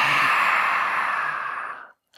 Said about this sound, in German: Und dann schließen wir mit einer Löwenausatmung, Zunge weit raus.